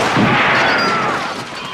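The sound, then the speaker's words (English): Dense, continuous blast of M16 automatic gunfire on full auto from the room shootout in the film Scarface. The firing is loud and harsh, and its shots blur together into one sustained burst that tails off slightly at the end. “You remember the scene at the end where Al Pacino says, you know, say hello to my little friend, and then shoots up, you know, this whole room full of people with an M16 on full auto.”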